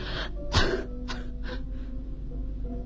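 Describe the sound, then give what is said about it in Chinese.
A person coughing over and over: a few harsh, breathy coughs at irregular intervals, the first one loudest, with a steady low hum underneath throughout. “海伦不停地咳嗽着”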